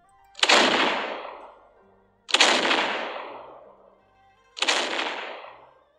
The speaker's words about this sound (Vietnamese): Tiếng pháo chói tai vang lên, tựa như là sấm động giữa trời quang.